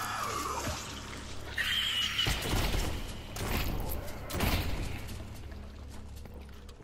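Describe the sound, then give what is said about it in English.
Shotgun reloading and firing in the House of the Dead video game on Dreamcast: a few heavy blasts and crashes break through a steady game backdrop. “I gotta reload my shotgun, dude. Yeah, I gotta get my shotgun out.”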